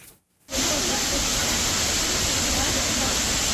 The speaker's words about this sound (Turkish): Gürül gürül akan şelalesi, yemyeşil doğası. Artvin'de bulunan Maral Şelalesi manzarasıyla kendine hayran bırakıyor.